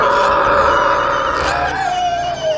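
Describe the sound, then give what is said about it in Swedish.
A pig monster in a children's role-play story gives a deafening roar: a loud, sustained, howling bellow that holds for a couple of seconds before its pitch sinks toward the end. “Grisen lutar sitt huvud bakåt och ger ifrån sig ett öronbedövande vrål.”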